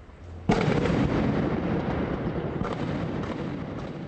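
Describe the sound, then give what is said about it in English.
Gunfire and explosions as Fatah's presidential guard fights Hamas along the waterfront in central Gaza City. A sudden loud burst breaks into a dense, continuous roar of blasts that goes on for several seconds. “By sundown tonight, the fighting had started up again. Fatah's presidential guard began blasting Hamas strongholds along the waterfront in central Gaza City.”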